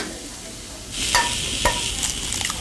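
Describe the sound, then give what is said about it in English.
Egg scrambled on a hibachi grill at Benihana's flagship restaurant in Manhattan gives off a bright, steady sizzle that swells about a second in, broken by a few sharp metallic taps against the hot surface. “Now, let's see. What, the egg now, right? Scrambled egg. Scrambled egg, okay.”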